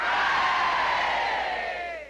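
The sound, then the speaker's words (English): A crowd of schoolboys gives a loud unison hooray as part of three cheers for a retiring master, the long group shout sliding downward in pitch as it fades away. “School, 3 cheers for Chips. Hip, hip. Hooray! Hip, hip. Hooray! Hip, hip.”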